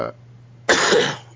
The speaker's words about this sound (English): feel better after that cough